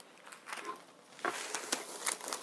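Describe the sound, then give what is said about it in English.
A card envelope from a subscription box being opened, soft papery crinkling and rustling with a few crisper scraping crackles. “And you open it up, and then you have the envelope with it.”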